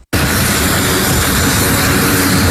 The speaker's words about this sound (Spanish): Así salía el avión que llevaba la primera ayuda a Venezuela desde Puerto Rico el miércoles en la tarde.